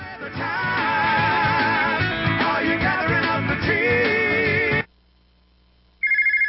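A telephone ringtone sounds for an incoming collection call: a loud, steady electronic melody plays for about five seconds, cuts off into silence, then starts again briefly at the end.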